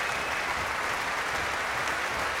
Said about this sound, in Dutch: Krijgt luid applaus van het orkest. Door gestampt met de voeten.